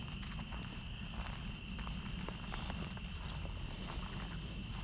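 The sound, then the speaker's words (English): Careful footsteps walking outdoors on the way back to a house, soft and faint, a few light steps scattered over a constant hissing background noise. “Being very careful walking through this on my way back to the house.”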